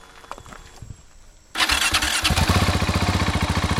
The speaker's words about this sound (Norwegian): Vi fyrer en sykkel, så altså får vi en måling på den også.